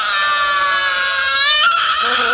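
A newborn baby, found under a fish market stall, cries in one loud, continuous, high-pitched wail, strained and wavering without a break.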